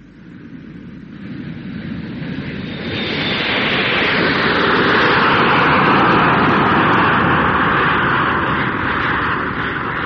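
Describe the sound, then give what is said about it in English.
Aircraft engines roaring in a London Airport control tower setting: a broad rumble that swells over a few seconds into a loud, steady, hissing roar and holds, with no voices. “The play opens in London Airport Control Tower.”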